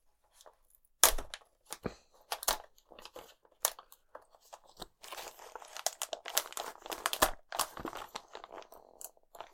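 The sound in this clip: Crinkling, crunchy tearing as a weird gummy snack is peeled, with many irregular sharp bursts of varying loudness across the whole stretch and no talk.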